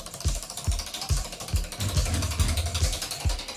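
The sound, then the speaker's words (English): A prize wheel spinning in a studio gives a regular run of about eight dull, low clicks at a steady pace over a broad hiss. “And I've got the prize wheel right here in the studio. So let's give it a massive spin.”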